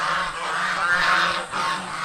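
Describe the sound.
Geese honk repeatedly, a grey goose among the flock, giving loud, nasal, steady calls that run almost without pause and dip briefly before resuming.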